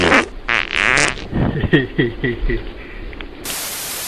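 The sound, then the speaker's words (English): A remote-controlled, button-triggered machine makes fart-like noises: a series of spluttering, buzzy bursts, loud and uneven, ending in a steady hiss. “Me and Gert have made a machine that can make a smelly noise when we press a button. We have a remote control with the button on that we can press.”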